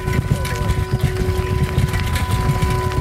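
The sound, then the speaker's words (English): A bicycle rattles while riding along a smooth trail, giving a quick, steady clatter of loose parts over a rumbling ride noise, with a faint constant whine throughout. “What you're hearing now is on my bike on the smooth trail. And even still, it's rattling quite a bit.”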